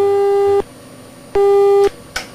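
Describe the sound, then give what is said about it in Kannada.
Telephone busy tone after a call was cut off: two steady, mid-pitched tone bursts separated by a gap, followed by a short click. “ಕರೆ cut ಆಯ್ತು ಯಾಕೋ ಗೊತ್ತಿಲ್ಲ.”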